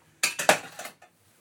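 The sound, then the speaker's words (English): A lid is lifted off a hot cooking pot with a few quick metallic clinks in close succession, followed by one faint tap. “it's quite a hot pot. Let's take the lid off.”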